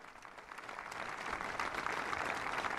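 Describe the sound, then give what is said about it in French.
Crowd applauding the pope: quiet, dense clapping that swells after about a second into a fuller, sustained round of applause. “C'est un cri du pape et les gens applaudissent.”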